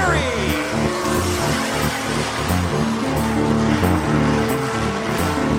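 Sprint car racing from the Lucas Oil American Sprint Car Series: loud, continuous engine roar with layered droning harmonics, sustained at a steady level for several seconds without a break.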